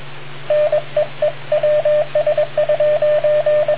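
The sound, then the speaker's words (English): An oscillator keyed through a radio microphone sends a call tone, many short beeps of one steady pitch in an irregular on-off pattern over a low constant hum and faint static. “everybody always had the oscillator. You just pull the trigger on the mic”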